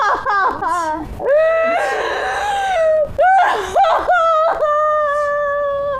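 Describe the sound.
A woman wails and sobs loudly in a long, tonal cry of grief. Her drawn-out vocal wails sag and waver in pitch, broken by short catches of breath.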